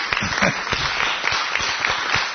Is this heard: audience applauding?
yes